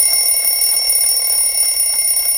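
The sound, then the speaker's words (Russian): An alarm clock rings in a home where someone sleeps in bed, a steady, unbroken high-pitched metallic ringing that stays loud for the whole stretch, with no voices. “Звонит будильник.”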